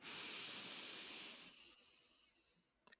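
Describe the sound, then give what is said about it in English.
A deep breath drawn in through the nose, heard alone as a loud, airy hiss that holds steady for over a second, then tapers and fades, followed by a small faint click. “we'd like to invite you to drop in and take a breath with us. Inhale.”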